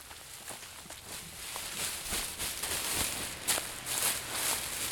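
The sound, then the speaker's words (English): People tread back and forth on dry bean pods spread over a sheet to loosen the beans, making a continuous dry crunching and rustling crackle of many overlapping steps at a steady, moderate level. “The point is to loosen the dry beans from their pods. They stop periodically to check on the progress and refold the sheet. And then they walk on them some more.”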